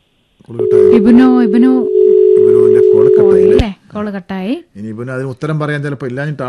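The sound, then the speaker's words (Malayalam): A telephone tone after a dropped phone call: a steady, unbroken mid-pitched hum that lasts about three seconds, with a voice talking over it, then stops as speech continues alone. “Call കട്ടായതാണെന്ന് തോന്നുന്നു.”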